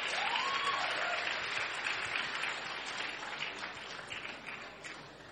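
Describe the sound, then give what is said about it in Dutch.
Applause from an audience at a school event, a steady dense clatter of many hands clapping. It stays loud for several seconds, then gradually thins and fades, with no talk over it. “Kom ons gee lekker applaus, as Saturnus en manne naar voren kom.”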